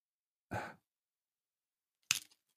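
Black advent calendar door being opened: a brief soft rustling swish, then after a pause a sharp short crack of card followed by a few tiny clicks, all quiet and with no talk.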